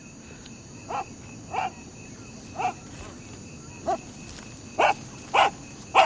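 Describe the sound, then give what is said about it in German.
A dog barks seven short times at uneven intervals over a low steady hum, the last three barks coming quicker and somewhat stronger than the first ones. “Wem gehört denn dieser hässliche Köter?”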